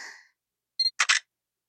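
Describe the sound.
A camera takes a photo: a short electronic beep, then a quick double shutter click, faint and alone after a brief voice fades out.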